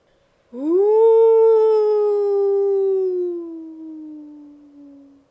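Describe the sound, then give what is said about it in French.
A wolf lets out one long, loud howl that swoops up at the start and then slowly sinks and fades over about four and a half seconds, with no other sounds. “Ouh. Ouh. Faisait le loup.”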